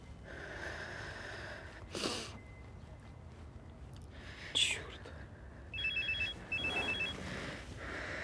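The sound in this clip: A telephone rings in two short bursts of high electronic trilling near the end, standing out over a steady low background hum.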